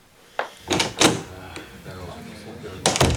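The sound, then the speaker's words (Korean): A door is opened with a few sharp clunks and rattles at moderate loudness, separated by quieter gaps. “그녀가 문을 열고 들어가자 요원실 정중앙의 테이블에 둘러앉아 왁자하게 떠들던 제로들이 순간 입을 다물었다.”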